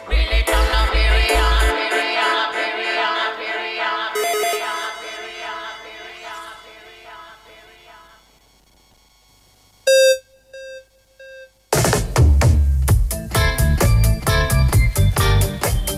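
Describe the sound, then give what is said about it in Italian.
A telephone ring tone sounds as a single steady beep lasting about half a second, then two shorter, fainter beeps, between stretches of music. “Un trillino, non no? lo so. Mi sembra un trillino molto lungo.”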